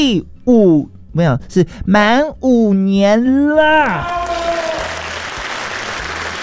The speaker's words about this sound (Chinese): 给自己一个掌声鼓励鼓励